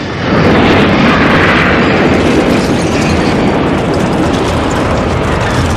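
A giant electrified plant explodes in a film scene with a loud, dense roar that bursts in suddenly and rumbles on at full strength for several seconds without easing.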